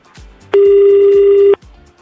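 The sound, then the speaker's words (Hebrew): A telephone being dialed gives one loud, steady electronic tone lasting about a second. It rises out of a faint, rhythmic pulsing background and drops back into it. “אני מחייג לאלעזר.”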